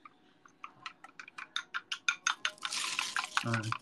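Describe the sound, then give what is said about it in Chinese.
Chopsticks beat eggs mixed with starch in a bowl: many quick clicking strokes that grow faster and merge into a continuous whisking rattle, with a brief voice at the very end. “现在我知道很多高级的家庭都有这个打蛋机咱们就不用这个，咱们就是最原始的筷子打蛋”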